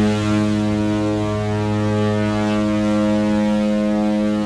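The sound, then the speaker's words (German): A deep ship's horn blasts as one steady, unbroken tone throughout, loud, rich in harmonics and unchanging in pitch, with no voices. “Und jetzt pass auf, der Übergang, der wird jetzt richtig gut. Das Schiffshorn.”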